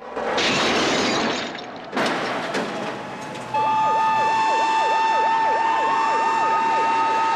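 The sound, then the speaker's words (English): Police car sirens as the cars speed down a hill, wailing in fast, regular up-and-down sweeps, loud and steady. Before the sirens start there are broad bursts of noise. “the police cars emerge from the alley and speed down the hill”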